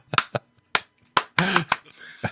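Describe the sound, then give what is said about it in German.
Hand clapping in front of a camera: a few sharp, dry claps at uneven intervals, with a short voice sound in the middle. “klatsch nochmal schnell in die Kamera.”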